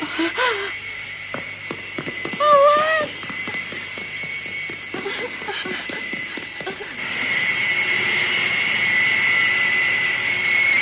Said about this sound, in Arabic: الخطوط الجوية الدولية تعلن عن إقلاع رحلتها رقم 614 إلى سان باولو في البرازيل.